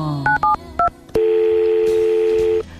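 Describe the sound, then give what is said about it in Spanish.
Telephone keypad dialing tones: a few short, crisp beeps in quick succession, then one long, steady tone that holds for over a second before cutting off. No one speaks. “voy a ver si llamo a Sebas”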